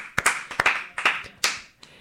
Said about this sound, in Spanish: Les mandamos una enhorabuena, ¿no? Les mandamos ahí un aplauso así.